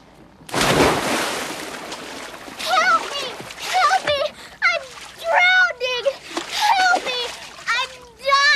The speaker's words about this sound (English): jump in. Swim out a few yards and start drowning.